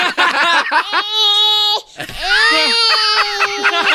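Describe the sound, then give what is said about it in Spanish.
A baby crying: choppy sobbing cries lead into two long, loud, sustained high wails, with no other sounds. “Sigue llorando, sigue llorando.”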